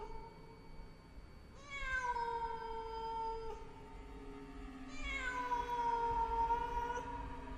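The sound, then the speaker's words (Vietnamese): A black cat on a window sill yowls at night: two long, drawn-out wailing cries, each starting high and settling into a steady lower tone. They are fairly faint over a soft background hiss, with no voices. “Có con mèo đen từ đâu nhảy đến ngay bên bậu cửa sổ, kêu lên mấy tiếng thảm thiết.”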